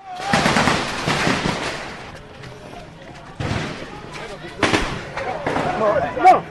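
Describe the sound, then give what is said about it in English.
Recorded gunfire aimed at people gathered in a stadium in Guinea: loud, rapid bursts of repeated shots in several clusters, with quieter gaps between volleys. “in addition to hearing this recording of the shots actually being fired”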